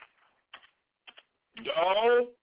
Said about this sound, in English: Hold on, y'all. I'm typing right now. And I'm actually typing what I'm saying.